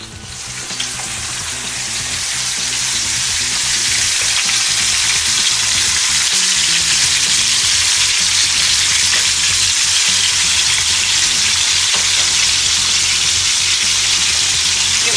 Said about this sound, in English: Cook the lamb for about a minute and a half to 2 minutes on each side.